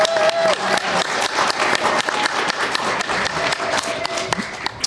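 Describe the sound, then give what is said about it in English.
An audience applauds a speaker at a podium with dense, steady clapping that stays at an even level throughout. “So let's hear it for Ken.”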